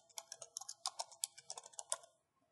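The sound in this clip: Someone types a name on a computer keyboard: many quick, irregular key clicks, faint and alone, stopping shortly before the end.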